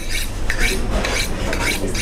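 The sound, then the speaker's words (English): Rhythmic metallic rasping as a sous chef sharpens a knife in a restaurant kitchen before filleting a large sea bass. Quick, even strokes repeat steadily and loudly over a low kitchen hum. “A sous chef sharpens his knife to fillet a giant sea bass.”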